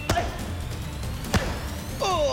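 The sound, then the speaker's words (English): A spinning back kick striking a person, heard as two dull, heavy thumps spaced more than a second apart. “Connor was bending my elbow and my wrist back as he was hitting me with this spinning back kick.”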